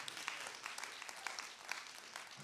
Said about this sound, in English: And yeah, that's a good place to clap too.